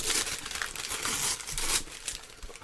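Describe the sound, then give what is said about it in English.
Paper wrapping crinkles and tears as a package holding a VHS two-pack box set is opened, making a continuous loud papery rustle with sharper ripping bursts. “All right, let's find a spot and start tearing. Open it up.”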